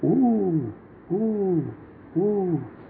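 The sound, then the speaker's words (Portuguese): An owl hoots at night: three clear, mellow hoots, evenly spaced about a second apart. Each hoot is rich in harmonics and sags slightly in pitch as it ends, over faint low background noise. “Vovô já tinha explicado para ele que isso era o som de uma coruja.”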